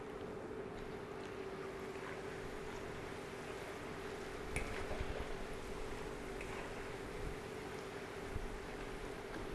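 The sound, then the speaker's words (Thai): Bananas fry in a pan with a steady, continuous sizzle over a low hum, broken by a couple of brief crackles later on. “เราต้องทอดให้เหลืองแค่อยู่ในกระทะนะครับอย่าไปทอดให้เหลืองเข้มจนเกินไปนะครับ”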